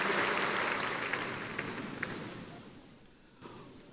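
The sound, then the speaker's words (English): Congregation applauding at a church prayer service: a dense patter of clapping that gradually fades, with a few sharper individual claps standing out. “Give him a big hand and please take your seat.”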